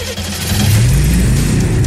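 Cadillac car engine revving, a loud low drone that climbs steadily in pitch for about a second and then holds at a higher, steady roar.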